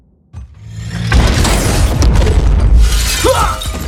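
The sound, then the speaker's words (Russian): An overloaded regeneration capsule bursts open with an explosion: a sudden loud blast breaks silence, followed by a sustained roaring, hissing rush with a shattering edge that stays loud to the end. “Все смотрят, как капсула со взрывом открывается.”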